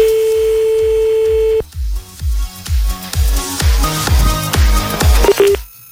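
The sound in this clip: Telephone tones for a call: a steady tone holds for over a second, then breaks into a quick run of many short dialing beeps over regular low thumps.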